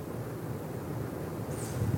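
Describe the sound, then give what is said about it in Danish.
Wind moving through a forest park at night: a steady, dense rushing roar, heaviest in the low range, continuous throughout with only slight swells and no voices. “Og det er bare vinden det”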